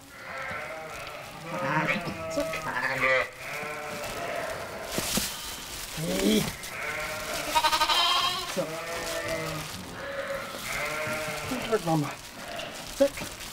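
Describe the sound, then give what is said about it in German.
Newborn lambs bleat during lambing season at a sheep farm, around a triplet birth: repeated quavering bleats of varying pitch, some overlapping, with human voices at times. “Das erste Lamm ist schon da.”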